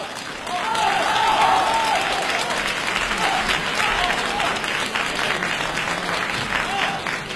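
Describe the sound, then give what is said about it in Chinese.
An audience at a crosstalk comedy competition in Beijing applauds, dense steady clapping that swells quickly and holds throughout, with a voice briefly audible over it. “感谢大家的掌声， 谢谢朋友们的热情。”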